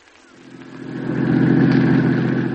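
A car engine hums as the car drives uphill, the steady mid-pitched drone swelling over the first second, then holding loud and even.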